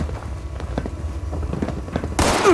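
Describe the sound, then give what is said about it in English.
Video-game gunfire: a steady run of many quick cracks and pops, ending in a louder burst. “It's all the shooting.”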